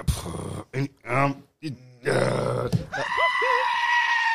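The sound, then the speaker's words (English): A goat screaming: harsh, loud, human-like blares followed by a few short, wavering bleats that curl upward and drop off. “Is that fucking goat that be screaming or some shit? Yeah, that's a screaming goat.”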